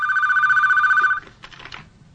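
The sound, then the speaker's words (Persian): A telephone rings as a sleeping man is woken to answer it: a steady, warbling electronic ring lasts just over a second, then cuts off, followed by faint clattering handling noises. “از خواب بیدار میشه و تلفن رو جواب میده.”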